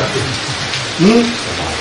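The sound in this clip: Light rain falls as a steady, even hiss throughout, and a voice briefly sounds over it partway through.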